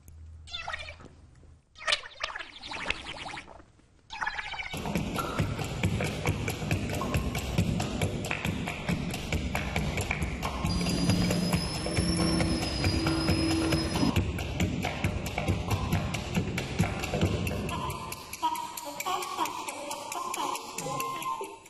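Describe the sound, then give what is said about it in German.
The Vegetable Orchestra plays instruments made of vegetables: a few sharp clicks lead into a dense, hissing, scraping texture with thin squeaky high tones drifting over it, all fairly quiet and with no voices. “Mozart hätte wohl seine helle Freude am Gemüseorchester gehabt, denn wo gibt es sonst solche Instrumente und Klänge?”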